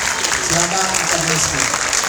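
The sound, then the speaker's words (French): Audience applause at a school event: a steady, continuous patter of clapping with a voice speaking over it partway through. “On peut applaudir.”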